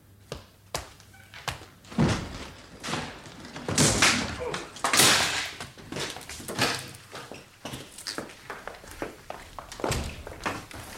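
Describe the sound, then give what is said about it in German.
A door being broken in: many heavy thuds and knocks of uneven strength, with the loudest, densest blows clustered in the middle. “Dann schlagen Sie die Tür ein.”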